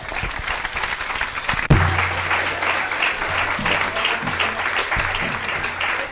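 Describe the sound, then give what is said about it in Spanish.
Steady audience applause welcoming a speaker at a university lecture course. The dense clapping holds at an even level throughout, with a few low thumps underneath. “Lo recibimos con un fuerte aplauso.”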